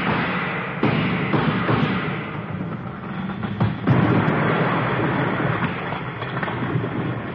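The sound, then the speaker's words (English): Gunshots fired at a stone column as a radio drama sound effect. A few dull, heavy bangs cut through a continuous rough rumble, with a couple of them close together near the middle. “Let's both take a few shots at that column over there.”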